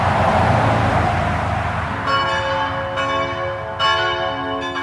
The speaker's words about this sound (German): Richtig, Autobahn und Kirche.